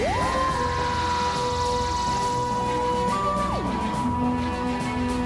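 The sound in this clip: A synthetic tunnel transition sound effect in which tones sweep upward at the start and hold steady over a dense, constant rumble, then slide down in pitch near the end into a lower sustained tone.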